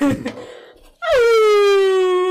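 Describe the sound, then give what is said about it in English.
A person imitates a zombie howl for Halloween, a loud, sustained wailing tone that drops in pitch at the onset and then holds steady for over a second, following a brief burst of voice. “Howling. I'm howling.”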